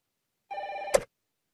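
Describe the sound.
A telephone rings once: a short electronic tone of about half a second, clear and alone, ending in a sharp click.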